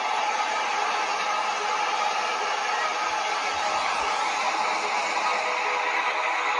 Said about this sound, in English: There's two whole shipping containers with big air compressors in them to generate the compressed air to blast the plume.